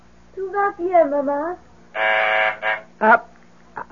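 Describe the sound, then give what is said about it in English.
An apartment phone buzzer from downstairs gives one harsh, steady buzz of about half a second, with speech before and after it. “That's the phone buzzer from downstairs, dear. I have to answer it.”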